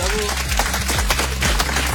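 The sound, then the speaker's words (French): Audience clapping for a dance crew at a live radio event in Caen. Busy, dense applause runs over a thumping musical beat, steady and fairly loud throughout. “Bien évidemment, vous pouvez les applaudir, oh, SNT Crew. Bravo.”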